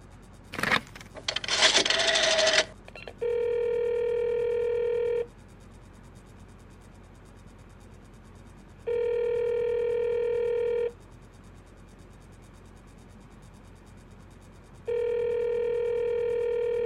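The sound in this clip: After a short burst of clattering and rustling, a telephone rings three times, each steady tonal ring lasting about two seconds with long quiet gaps between, heard alone without voices.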